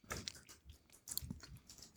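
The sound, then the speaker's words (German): Crunchy chewing of potato chips, three chips eaten at once, with a quick flurry of crisp, crackling bites at the start and another burst about a second later, alone with no talk. “ich habe ja vorher nur einen Chip probiert, das habe ich mal 3 Stück genommen, auch um diesen Crunchy-Effekt zu haben”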